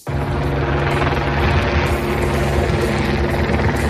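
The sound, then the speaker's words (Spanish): Ultralight airplane, one of two that crashed near Moià aerodrome in Barcelona, heard as a loud, continuous droning engine and propeller hum, steady and rough-textured from start to finish with no voices. “Este es el sonido de uno de los aeroplanos que se estrellaron ayer al mediodía.”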